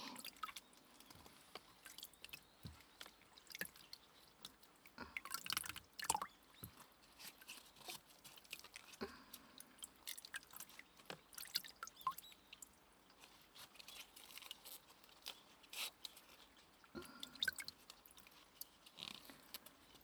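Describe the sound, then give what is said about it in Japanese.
Napa cabbage is washed in water for homemade pickles, with many soft wet squishes, splashes and drips in an irregular rhythm, mostly quiet with a few louder bursts. “白菜を。ひたひたと洗って。”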